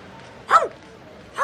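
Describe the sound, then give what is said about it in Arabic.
A small dog barks twice, sharp and fairly loud, the second bark coming about a second after the first over a faint background. “تنحى جانباً أيها الكلب، تنحى، اتركني. ماذا تريد مني؟ لمن هذا الكلب؟”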